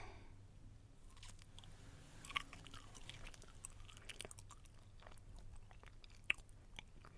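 Someone chews food at close range: quiet, crunchy bites and mouth clicks repeating irregularly throughout, with a couple of sharper clicks standing out.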